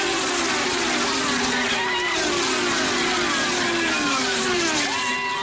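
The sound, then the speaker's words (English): Race cars drafting uphill at Watkins Glen International in New York, their engines a high, layered whine with shifting pitch, while a commentator's voice talks over them. “Despite the cancellation of Indy and NASCAR auto races, one did take place at Watkins Glen International in New York. Going up the hill, and he's got a nice little gap on Rosenquist already. See these cars drafting,”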